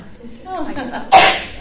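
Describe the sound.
A single sharp, bursting sneeze follows a brief stretch of soft, murmured voice, loud and abrupt before quickly cutting off.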